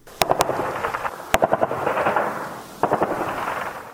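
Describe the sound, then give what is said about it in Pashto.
Gunfire rings out during armed fighting in contested districts. Three bursts begin with a sharp crack, each followed by a quick run of repeated shots that fade into a rumbling echo. “الیاس تایی تفصیلی ریپورت اورو چی د ډزو په غونو پیلېږي”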